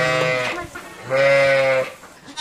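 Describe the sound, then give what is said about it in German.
Ewes with their lambs bleat in small wooden stalls filled with straw inside a large hall. A few wavering, nasal bleats come alone, the second one long and loud. “Wolle, wohin man schaut, und ganz viel Stroh. Die einzelnen Holzställe sind gerade so groß, dass ein Mutterschaf mit seinem Jungen Platz findet.”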